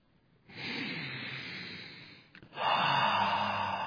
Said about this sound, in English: Deep breath.